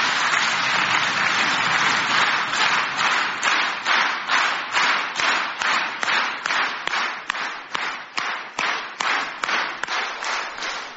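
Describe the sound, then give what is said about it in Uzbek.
An audience applauding after a New Year's greeting: dense clapping that settles into rhythmic clapping in unison, a steady beat of loud claps continuing throughout. “Ana, chapaklarni ko'rdingiz, bala.”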